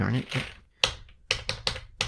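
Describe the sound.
Keystrokes on a computer keyboard: a short pause, then five crisp plastic clicks in an uneven rhythm, the last few coming in quick succession.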